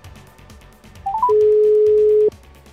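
A telephone call is dialled: three short electronic beeps rise step by step in pitch, then a single steady ringing tone sounds loud and even for about a second before cutting off over a faint background.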